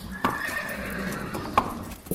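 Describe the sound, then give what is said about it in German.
A horse whinnies with a long, high, wavering call as it is led out of the stable to be hitched to a covered carriage. A few sharp hoof knocks stand out over a steady background. “Der Menno Uengert führt das Ross aus dem Stall und spannt es vor einer Kutsche.”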